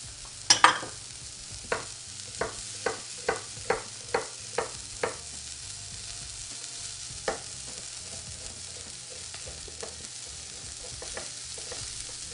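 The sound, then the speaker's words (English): Fish frying in a pan, with a soft, continuous sizzle under a quick series of sharp utensil taps early on and one more tap a little later. “When this fish is cooked, I'm going to remove it from the pan and start sauteing my vegetables.”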